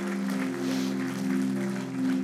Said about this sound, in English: Can we please clap? Can we clap? Can somebody clap?